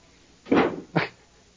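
A dog yelps after a door closes on her nose: two sharp, loud cries, the first longer and the second briefer, then quiet.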